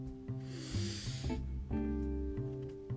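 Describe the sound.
A deep, slow inhalation during guided chakra meditation, heard as a soft, airy hiss lasting about a second over gentle, sustained background music tones.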